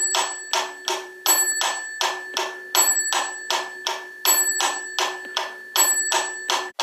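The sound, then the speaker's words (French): An 1832 clockwork metronome ticks in a steady, even pulse. A bright bell dings on the first of every four beats, four bell strikes in all, each ringing over the ticks. “on entendait 4 battements du métronome, et puis une sonnette tous les 4 temps, donc il marque le début des mesures.”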